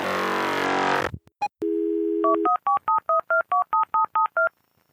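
Telephone touch tones dialing a number: a burst of noise and a click, then a brief steady dial tone, followed by a quick, evenly spaced run of about ten beeps of shifting pitch.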